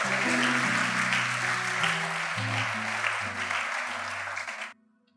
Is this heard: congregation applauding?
yes